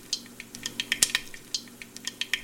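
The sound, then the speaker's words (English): Mustard seeds pop and split open in hot oil while khichdi is being cooked, giving many quick, sharp, crackling pops at an irregular rhythm, moderately quiet and with no talk. “So the mustard seeds are kind of popping like popcorn wood in, in oil, in hot oil. And so it's actually like the mustard seeds are popping and breaking open in there.”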